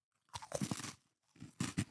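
Crisp crunching as someone bites into and chews a thin, crisp Anna's cookie: two quiet bursts of crunching separated by a short pause.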